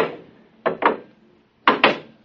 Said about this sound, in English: The door's closed behind us.